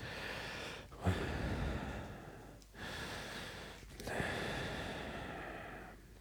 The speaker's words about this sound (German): Ich sag nichts dazu, ich atme nur schwer.